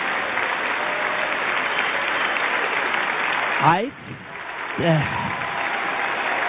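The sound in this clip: Audience applause and cheering fill an event showing pictures of veterans, a steady, dense wash of clapping and crowd noise with a couple of brief voices rising over it.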